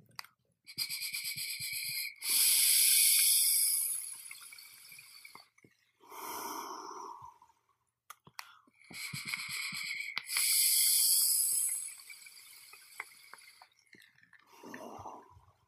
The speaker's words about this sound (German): ich dampfe jetzt einmal eine Kostprobe für die von Flavor Art Tuscan aus dem Emmet 25 bei 40 Watt